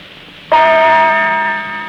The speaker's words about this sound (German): Die Zeit mit dem Gongschlag 20 Uhr und eine Minute.